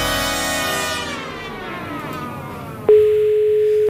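A telephone ringback tone plays while a call waits to be answered: a single steady, mid-pitched tone lasting about a second, following a falling, fading sweep.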